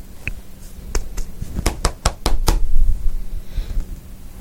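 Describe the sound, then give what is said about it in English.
Knocking on a farmhouse door: a run of sharp, fairly loud raps that begin singly, then quicken into a brisk, evenly spaced sequence before stopping, with no voices. “Just walk up to the farmhouse. Okay. And just knock on the door.”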